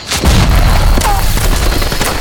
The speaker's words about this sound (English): The blast blew on the far side of the breastwork.